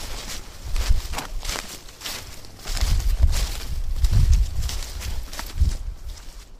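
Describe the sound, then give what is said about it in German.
Footsteps of a few people setting off on foot for a geocaching outing: irregular, soft thuds with light rustling that rise and fall in loudness. “Dann wollen wir mal, wa? Genau, wir gehen jetzt mal los.”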